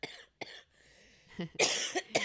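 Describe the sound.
Someone clears phlegm from the throat with several rough, hacking cough bursts and harsh throaty rasps. The sounds come in uneven clusters and are fairly faint.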